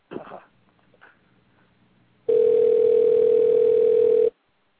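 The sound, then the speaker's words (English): Telephone dial tone heard while a caller is being dialed: one steady, loud, unbroken tone lasting about two seconds, then cutting off abruptly. A few faint, brief sounds come before it. “Dialing Jill now.”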